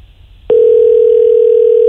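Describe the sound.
A telephone dial tone sounds while a call is placed to leave a voicemail. It cuts in abruptly after a brief quiet moment as a loud, steady, single-pitched hum that continues unbroken to the end.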